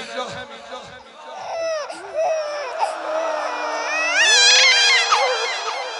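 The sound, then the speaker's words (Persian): A nursing infant cries in high, wavering wails that rise in intensity toward the end, mixed with voices. “شما داد میزنید گریه میکنید صدا گریه یه شیر خاره میاد”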